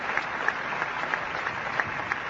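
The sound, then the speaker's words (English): A large crowd applauds in St. Peter's Square, showing gratitude to the late pope. The dense clapping runs steadily throughout, with a few sharper claps standing out. “The people applaud, indicating their gratitude to the late Pope John Paul II.”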